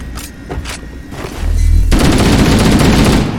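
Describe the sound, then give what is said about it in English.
Video game gunfire: a few sharp, separate shots, a brief low rumble, then a loud, sustained burst of rapid automatic fire that lasts to the end. “You're being shot at.”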